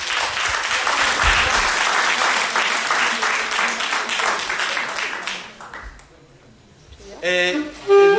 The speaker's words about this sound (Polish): wielkie brawa